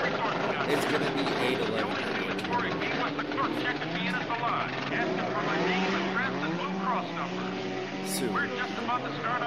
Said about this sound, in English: Ah, this is the chainsaw. The chainsaw sounding motor.